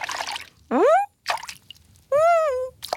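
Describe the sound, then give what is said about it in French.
Cartoonish watery bloops as a plush toy slides into a bathtub: two rising, pitched gliding tones, each set apart by brief noisy splashy bursts. “Il ferme les yeux et zzz, il glisse dans la baignoire.”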